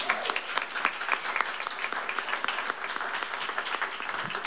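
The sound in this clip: Audience applause for a guest musician at a live show: many hands clapping in a busy, crackling burst that stays fairly loud and even throughout, with individual claps standing out in the mix.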